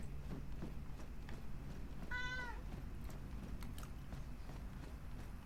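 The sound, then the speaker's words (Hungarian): Cat meowing: a single short, faint meow in the middle, set against steady low background noise and a few soft knocks. “egyébként még mindig ilyen elképesztően nyávogós hangulatban van. Az esetek nagy részében be sem áll a szája.”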